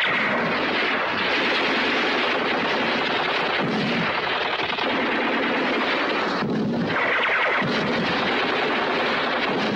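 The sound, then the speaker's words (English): Heavy gunfire as German soldiers open fire on saboteurs across a flare-lit field: a dense, continuous barrage of shots and booming blasts, loud throughout with no clear breaks and no talk. “The Germans open fire.”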